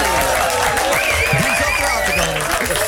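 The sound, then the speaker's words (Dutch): Studio audience applause at a morning show, a dense, loud, even wash of clapping that lasts the whole moment, with voices faintly mixed in. “Geef hem een groot studioapplaus.”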